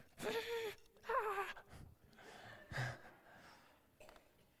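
An audience at a church sermon breathes out together on cue, several faint, breathy, overlapping exhalations in separate bursts, some carrying a soft moaning voiced edge.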